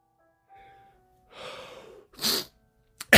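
An allergy sneeze: a breathy intake of air builds up and then bursts into one sharp, noisy sneeze, followed by a couple of brief clicks.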